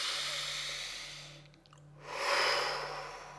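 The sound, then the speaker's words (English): A deep breath drawn in: a soft, breathy rush that dips briefly and then swells into a fuller inhale, with a low steady hum underneath and no voices. “Take a breath.”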